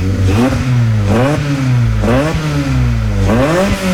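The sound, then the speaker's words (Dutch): A car engine of about 200 horsepower revs repeatedly. Its loud, throaty tone climbs in pitch in several surges and drops back between them, with no talk over it. “Wel 200 pk. Oh, nou loop maar eens een buurt. Ja, dat klinkt lekker. Ik ga er ook even gas geven, hè? Een beetje gas geven.”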